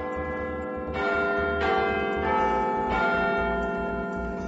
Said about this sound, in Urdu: Church کی گھنٹیاں بجیں اور پھر خاموشی چھا گئی۔